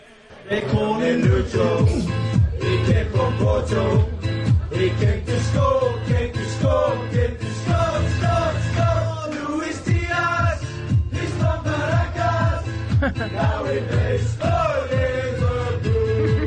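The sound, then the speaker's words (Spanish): Football fans sing a Liverpool chant in bars and in the stadium: loud, sustained massed voices carry a tune together with a steady rhythmic pulse, and the sound stays dense and continuous throughout. “Entonces vamos a escuchar un pedacito de cómo se canta en los bares de Liverpool y cómo se canta en el estadio, ya adaptada.”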